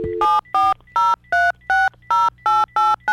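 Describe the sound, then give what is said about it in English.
A rapid run of telephone keypad tones as a number is dialed quickly: a brief low dial tone, then about nine short, evenly spaced two-tone beeps in quick succession. The beeps are loud and clear, with no talk. “I'm dialing fast now. Here we go. Let's see if the person answers.”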